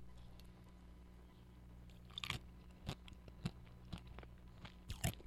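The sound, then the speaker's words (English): Crunchy bites and chewing on a coated ice cream bar on a stick, a Dilly Bar: a few sharp, quiet crunches spaced through the second half over a low steady hum, with no talk. “You know, I'm not sure how you eat the center of this dilly bar, because it's on the stick.”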